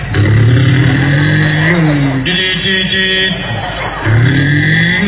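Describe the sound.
A man's voice imitates the engine of a clay toy car during a sermon, producing loud, continuous revving vroom sounds that rise and fall in pitch.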